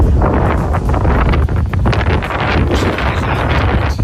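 Strong wind buffets the microphone outdoors on a morning walk, a loud, continuous roar with rough gusty surges throughout.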